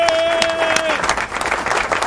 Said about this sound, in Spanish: Un aplauso para Gilbertico ahí.